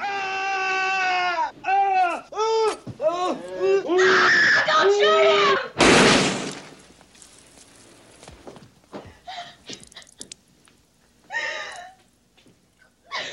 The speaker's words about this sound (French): Alors les cris et le bruit des tirs est presque aussi insoutenable à la radio qu'à l'image.